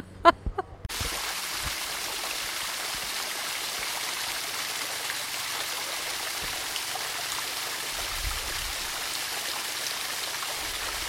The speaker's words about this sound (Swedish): Det här är ljudet av Veronicas vattenfall.